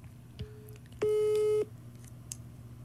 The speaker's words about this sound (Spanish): A ver, déjame le digo. Déjame le marco.